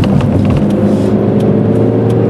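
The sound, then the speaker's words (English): A car being driven gives a steady, low engine hum and road rumble that stays even in loudness for the short clip. “Yes, I'm driving.”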